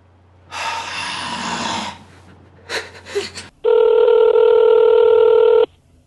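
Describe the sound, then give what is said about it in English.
A steady electronic telephone tone as a call is placed to a friend, sounding alone for about two seconds after a stretch of rustling noise and a few short bursts. “let's call our buddy Benji”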